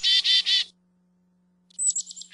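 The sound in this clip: Chickadee calls given in response to a great horned owl: three broad, buzzy notes, a silent pause, then a thin high note followed by a few short notes, all loud and alone.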